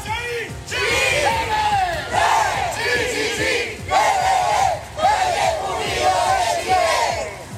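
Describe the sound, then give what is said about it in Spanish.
Chanting crowd of around a hundred Malleco Unido football supporters marching through the city centre in the afternoon; loud, rhythmic chanted phrases repeat many times with short breaks between them over a steady wall of voices. “ahí está parte del sonido ambiente de un centenar de hinchas de Malleco Unido que salieron a marchar durante esta tarde acá en el centro de la ciudad”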